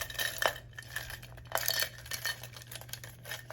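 Faint rummaging through a container of pens, with light clattering and a few sharper clinks as the pens knock together.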